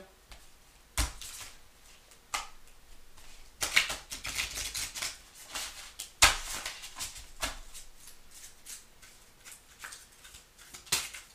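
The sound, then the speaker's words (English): An oracle card is drawn from a tarot deck, with many irregular papery riffles, taps and sharp snaps of handled cards, some louder bursts among softer rustling and no talk. “All right, I'm about to pull the Oracle card. May I have the energy for Aries? for 2022.”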